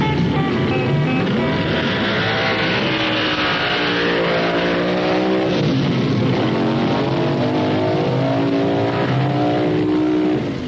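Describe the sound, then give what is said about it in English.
Drag racing cars revving and accelerating, a loud, continuous, heavy engine roar whose pitch sweeps upward again and again, with no voices. “Drag racing is a uniquely American sport, started at the end of World War II by several Southern California communities,”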